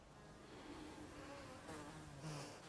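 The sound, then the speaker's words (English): Flies buzz around the empty eye cavity of a dead horse lying on a leafy forest floor, a faint, steady drone with no other clear sounds. “Flies buzz around the empty eye cavity of the dead horse on the leafy forest floor.”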